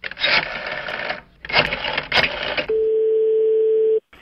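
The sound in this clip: Ringing tone of a phone call to a bookshop: a couple of seconds of dense, rattling noise give way to one long, steady, mid-pitched tone that stops abruptly.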